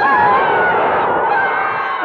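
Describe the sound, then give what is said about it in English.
Children scream together in a continuous, shrill, overlapping mass of voices that stays loud throughout. “Then they screamed and screamed and screamed.”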